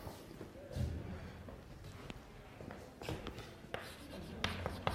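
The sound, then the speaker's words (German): Handwriting on paper: a quiet, continuous scratch of pen strokes broken by small taps and soft thuds as the writer works. “Ich schreibe erstmal hin, was ich meine.”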